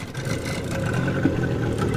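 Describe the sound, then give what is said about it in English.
Continuous motor whir of a leaky wooden motorboat travelling down the Guayabero River: a steady droning hum with a faint tonal engine note that stays level throughout, with no talking. “First, we board a leaky wooden boat that motors us down the Guayabero River.”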